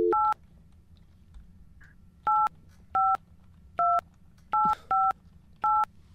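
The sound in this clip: Dual-tone telephone keypad beeps as a number is dialed: seven short, clear, high tones, one alone at the start and then six more in an uneven sequence, loud over a faint low hum.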